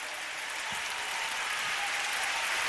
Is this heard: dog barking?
no